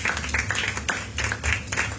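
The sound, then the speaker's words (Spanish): A church audience clapping hands loudly in a steady rhythmic beat, repeated even bursts of many hands striking together over a low hum. “Dale una ofrenda de palmas fuertes a nuestro Dios, iglesia.”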